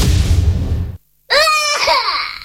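A baby crying in a radio advertisement: loud, wavering infant wails with sweeping harmonic pitch that start abruptly after a short silence and continue to the end.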